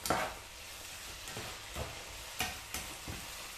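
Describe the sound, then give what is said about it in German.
Chanterelle mushrooms fry in a pan for linguine, a faint steady sizzle broken by several scraping stirs at irregular intervals. “dann würde ich sagen, braten wir das hier mal alles schön an.”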